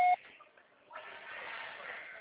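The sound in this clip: A voicemail recording tone sounds after the automated prompt of a Portuguese-language mailbox, a single short, clear beep followed by faint, steady line hiss.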